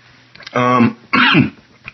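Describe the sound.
A person clears their throat and coughs after swallowing something the wrong way. Two harsh, raspy bursts with a short pause between them are followed by a faint small catch.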